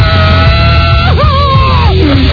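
A recorded scream used as a sound drop: a loud, thin, band-limited yell about two seconds long, with a wavering pitch that swoops up and then falls away before it cuts off.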